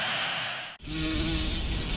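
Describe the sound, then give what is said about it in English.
A bee buzzing around, a loud, steady droning hum that cuts off briefly once early on, then carries on unbroken with no voices. “why do bees sting? I guess they need a way to protect themselves. But they're busy making honey. Yeah, so we shouldn't bother them. If we leave them alone, they'll leave us alone. Then why is this one bothering us?”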